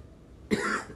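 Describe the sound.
A single short, faint cough breaks out on its own after a moment of near silence and fades quickly.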